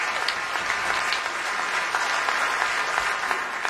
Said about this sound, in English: give yourselves a hand